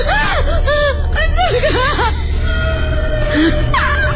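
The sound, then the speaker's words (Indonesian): Eerie crying in a horror story: wavering, sobbing wails with gasping breaths, rising and falling in pitch across several drawn-out cries. “Tangisan itu terdengar sangat jelas.”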